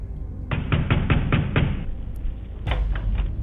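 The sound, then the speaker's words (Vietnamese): Heavy pounding on a door: a run of six hard, evenly spaced thuds, a short pause, then a few more forceful blows, loud and without voices. “Nó không gõ nữa mà nó đập cửa.”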